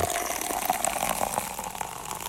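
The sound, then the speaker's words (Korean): Canned sparkling water poured into a glass: a steady, hissing, fizzing gush that runs for about two seconds without a break. “냉장고에서 얼른 하나 꺼내드릴게요. 캔 탄산수 한 잔 드세요.”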